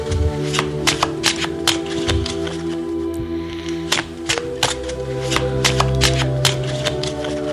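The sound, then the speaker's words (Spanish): A fortune teller shuffles a tarot deck, producing many quick papery riffles and flicks in a steady run over a constant musical background. “Nuestro amigo el Brujo barajea las cartas.”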